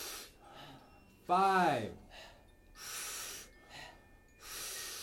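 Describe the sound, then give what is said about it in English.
Rhythmic power breathing during a breathing exercise, with forceful, noisy inhales alternating with softer exhales in a steady pattern and a brief voiced sound partway through. “It's a big power breath, soft exhale. We'll do it rhythmically. We'll do it together. It'll sound like this.”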